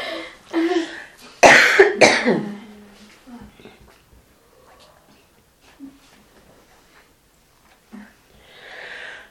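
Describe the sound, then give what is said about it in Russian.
Loud coughing from a person: a few harsh, clustered bursts near the start, followed by fainter breaths and throat sounds that trail off, with a soft rustle at the end. “аж закашлялся от счастья. Счастье не в то горло попало.”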